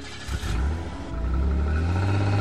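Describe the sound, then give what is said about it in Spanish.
A car speeds off at full speed, its engine a deep, rumbling roar that swells and grows louder and steadier about halfway through, with no voices. “El auto partió a toda marcha.”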